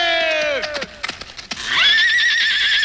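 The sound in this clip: A horse whinnies loudly with a quavering cry that drops in pitch, followed by a few hollow hoof clops.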